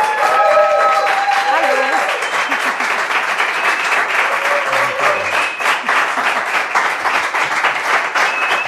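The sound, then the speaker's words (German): Studio audience applause welcomes a guest with loud, dense clapping from a crowd that keeps up steadily for the whole stretch, while voices talk over it near the start. “Wie früher, ich wollte es gerade sagen, so viel Applaus bist du ja gewohnt”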